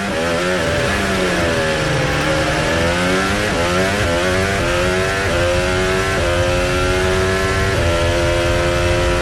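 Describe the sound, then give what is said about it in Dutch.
Racing car engine heard onboard, a loud continuous high-revving whine that climbs in pitch and drops back at each of several gear changes. “Onboordgeluid van Kimi Antonelli richting de Leus Herpin.”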